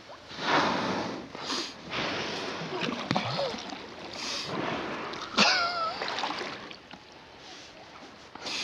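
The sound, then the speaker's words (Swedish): Water splashes and sloshes around a kayak as a humpback whale dives straight beneath it off Tromsø, uneven surges of splashing and swishing rising and falling over a steady watery wash. “Tio meter bakom mig. Nu dyker en val rakt under Martins kajak.”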